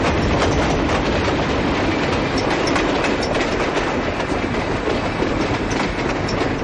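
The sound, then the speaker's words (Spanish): A train passes on rails with a loud, continuous rumble and rapid clickety-clack of wheels over track joints, holding at an even, heavy level throughout without a break. “logra ver los pies de Oliveira al otro lado del tren. De pronto da un salto y consigue subirse en él.”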